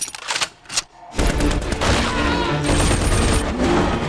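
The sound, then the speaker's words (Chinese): Heavy machine gun fire blasts through a film battle scene. A few sharp bursts open, then a dense, loud roar of rapid shots holds without a break to the end. “快跑！架好重机枪！”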